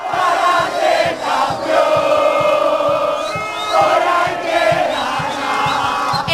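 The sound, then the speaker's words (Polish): Argentina fans roar in the fan zone outside the stadium in Atlanta after a dramatic win, a loud surging crowd of cheers and shouts that swells and dips in waves. “Strefa kibica przed stadionem w Atlancie oszalała.”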